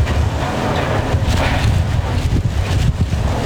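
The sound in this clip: Strong wind from Hurricane Isaias, gusting up to 165 km/h as it strikes Florida, Georgia and Alabama, roars as a loud, continuous rush that buffets the microphone throughout.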